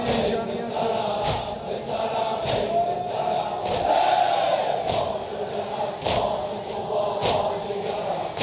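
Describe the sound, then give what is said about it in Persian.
A crowd of mourners chanting together at a mourning gathering, a dense, sustained wash of voices punctuated by recurring sharp hits at uneven intervals. “این صدای این جمعیت،”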